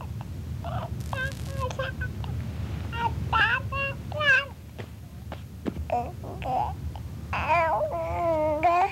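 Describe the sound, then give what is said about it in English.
An infant around seven to eight months old babbles in speech-like, inflected patterns. Short bursts and longer wavering, rising and falling vocalizations sound over a low hum. “By 7 to 8 months, his babbling includes the inflectional patterns of adult speech.”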